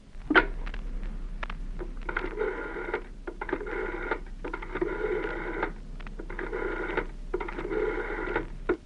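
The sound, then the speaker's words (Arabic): A telephone is being dialed, heard as a series of faint, rhythmic buzzing bursts separated by short gaps over a low steady hum. No talk is heard. “طب اديني التليفون”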